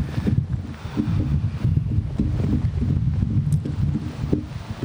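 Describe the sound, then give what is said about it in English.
Strong wind blowing on a beach, a steady, loud, low roar that buffets the microphone without break, with no voices or other distinct sounds. “This beach mass. This wind is crazy.”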